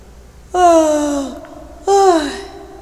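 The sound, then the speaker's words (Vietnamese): A man gives a loud yawn in two drawn-out voiced exhalations. Each one slides downward in pitch, and the second is shorter, with quiet between them. “Anh ta ngáp một cái rõ to.”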